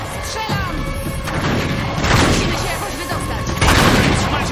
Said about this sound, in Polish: Oni strzelają w mnie?